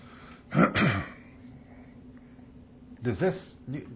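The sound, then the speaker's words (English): Coughing and throat clearing after something went down the wrong way: a first cluster of harsh, hacking bursts, a pause, then another short cluster of rough coughs. “Something went down the wrong throat.”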